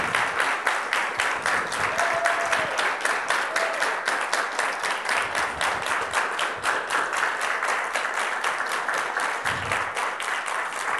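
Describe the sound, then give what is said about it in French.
Sustained audience applause at a church service, given in honor of single parents and mothers: dense, steady clapping that holds at an even, loud level for the whole stretch without pause. “qu'on applaudisse, qu'on honore, qu'on applaudisse les parents célibataires, monoparentaux, et aussi en même temps les mamans. Alors on y va fort. 15 secondes.”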